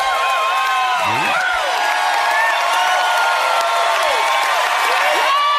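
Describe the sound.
An audience cheers, whoops and applauds at the end of a live Tennessee folk music recording: a dense, steady wash of clapping and crowd noise with whistles and shouts rising and falling throughout.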